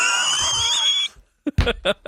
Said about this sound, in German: Du musst noch richtig Luft rauslassen. Alles raus, raus, raus. Und jetzt schrei mich an.